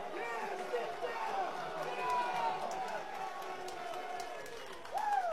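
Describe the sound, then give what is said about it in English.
Rowdy Citadel fans at a college baseball game jeer a Sooner base runner after a pickoff: a continuous, fairly faint crowd roar with shouts and talk mixed in, swelling slightly near the end. “And Deson Harris hears it from the Citadel fans on his way back to the dugout. They have arrived rowdy.”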